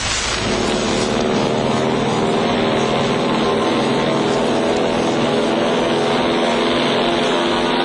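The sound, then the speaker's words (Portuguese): A propeller airliner in flight gives a loud, steady drone of dense engine roar that stays even and unbroken from start to finish. “Nos aviões dos transportes aéreos portugueses, chegará ao Porto numa hora e um quarto.”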